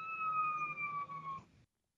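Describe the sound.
A siren wails in a steady, clear tone that drifts slightly lower in pitch, holds for over a second, then cuts off abruptly into silence.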